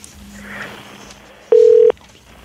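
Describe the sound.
A single steady telephone keypad tone sounds once, loud and short for under half a second, over a faint background hum just before a phone call is placed.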